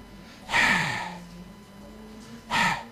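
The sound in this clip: Breathy Arabic letter ha, pronounced with breath instead of voice: two short, airy throat exhalations about two seconds apart, the first slightly longer, with soft quiet between them.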